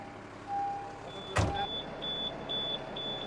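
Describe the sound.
A car pulling forward again while manoeuvring to park, with a low engine hum, one sharp knock midway, then a series of high, intermittent beeps.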